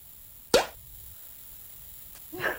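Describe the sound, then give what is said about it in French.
A small champagne bottle's cork pops twice over a quiet background, the first sharp and bright, the second a softer, broader pop about two seconds later. “Petite bouteille de champagne qui saute?”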